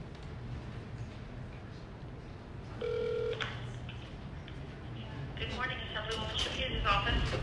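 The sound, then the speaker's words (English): Touch-tone telephone dialing with the handset held right next to a microphone: one short steady beep, a quiet pause, then a run of rapid keypad tones and clicks toward the end over a low background hum. “Go ahead and start dialing. Okay. And put it right next to the microphone.”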